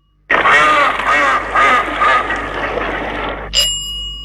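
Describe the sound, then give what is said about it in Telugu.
A duck quacks in a quick run of loud, nasal, raspy quacks, several bursts in close succession, before the calling stops near the end. “ఇది బాతు అరుపు.”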